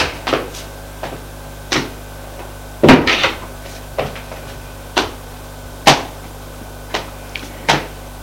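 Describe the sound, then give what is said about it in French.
Knocking on a bedroom door: a series of hollow wooden raps and thumps at uneven intervals, with a denser cluster near the middle and more single knocks after it. No voices. “Alexis sort de sa chambre. Il va frapper à celle de son ami.”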